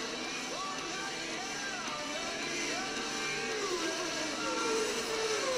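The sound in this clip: A motorboat engine in a racing video game, a faint droning hum with whining tones that bend up and down in pitch as the boat speeds along.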